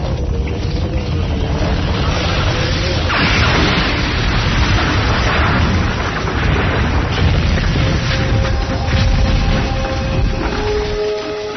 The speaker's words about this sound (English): We're going to blast through. Everybody against the machine.